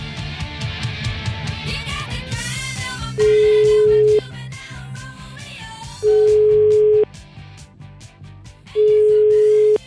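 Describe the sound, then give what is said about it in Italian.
Ringing tone of an outgoing telephone call: three steady one-second beeps at a single mid pitch, spaced a few seconds apart, sounding over a continuous music bed. “io proverei a fargli una telefonata”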